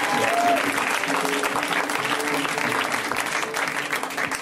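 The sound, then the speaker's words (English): Audience at a comedy show applauding a comedian: a dense, loud clatter of many hands clapping that holds steady through the whole stretch and eases off slightly at the end. “Give it up for Grant, you guys. Let's hear it for Grant.”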